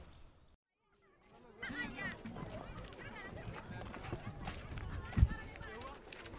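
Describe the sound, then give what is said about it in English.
Displaced people arrive on foot with small donkey-pulled carts at a border village in Cameroon. Hooves clip-clop and feet shuffle amid a faint murmur of crowd voices after a brief quiet opening, with one sharper knock near the end. “This is the sound of people on the move, a humanitarian displacement crisis in real time. These people are arriving with small carts pulled by donkeys.”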